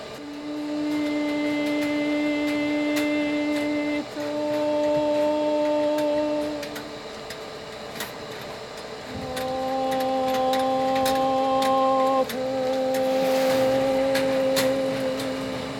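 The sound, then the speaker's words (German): Machinery in a soap factory hums and clatters steadily, with bright ticking clicks over sustained droning tones that shift pitch a few times. “Eine Seifenfabrik. Und versucht, mit meditativer Konzentration und ihrem Gesang dem Lärm der Maschine ihre Ruhe entgegenzusetzen.”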